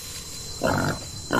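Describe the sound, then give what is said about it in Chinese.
A wild boar grunts as it moves through lush grass on a lakeshore, giving two short, low, rough bursts, the second cut off at the end. “野猪准备穿过茂盛的草丛，而塔拉就藏在草丛后面”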